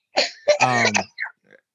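Throat clearing from a tickle in the throat, a few rough, voiced rasps with a longer, louder middle push, then two smaller, fading hacks trailing off, with no speech around them.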